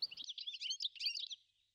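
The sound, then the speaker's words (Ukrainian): A goldfinch sings a rapid, high-pitched twittering trill of bright chirps that runs for just over a second, alone, then fades out. “а я у лісі один з перших співаків – Щиглик. І Щиглик дзвінко вивів.”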